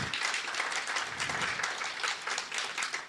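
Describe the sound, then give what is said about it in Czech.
Audience applause at a travel festival in Pardubice, where a travel programme is recorded live: dense, steady clapping that holds at an even level throughout, with no voices. “A já teď vysvětlím, jak to, že jste slyšeli ten potlesk, protože dnešní pořad Na cestách vzniká na cestovatelském festivalu v Pardubicích.”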